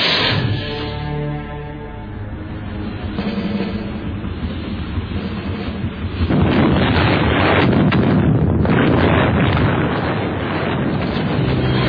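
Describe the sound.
A torpedo fired and exploding: a dense, muffled rumbling roar that holds steadily, then swells abruptly into a louder, harsher blast that rages on to the end.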